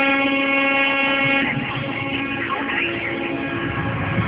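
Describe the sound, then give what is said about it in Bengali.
A train slowly starts to move. Steady humming tones give way to a rising, rumbling wash of rolling noise partway through, and that rumble continues to the end. “আর ঠিক এমন সময় ট্রেনটা ডুবে উঠল, তারপর খুব ধীরে ধীরে সামনের দিকে চলতে শুরু করল।”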